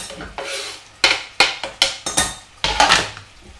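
A spoon stirs chopped aromatic ingredients in a cooking pot, a few short scraping and knocking strokes in an uneven rhythm, clear and alone without talk.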